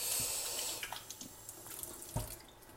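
Hands being washed under a running tap at a sink: a steady, fairly faint hiss of flowing water with a few soft splashes and knocks.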